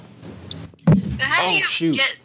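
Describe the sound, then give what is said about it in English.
A microphone being dropped lands with one sharp, heavy thump, and voices talk right after it. “Oh, shoot. I dropped the microphone.”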